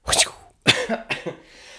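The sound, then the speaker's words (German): A few sharp human coughs, used in place of a wiping sound effect: one strong burst, a brief pause, then more short, rough coughs that trail off, heard alone without speech. “Ich könnte anstatt diesem Wischgeräusch, was ich ja immer a cappella-mäßig einspiele, auch einfach husten.”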